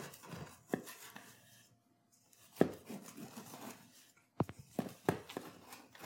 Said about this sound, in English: We're going to take a serrated knife. You want a serrated knife, and we're going to gently cut around the edge here to loosen it.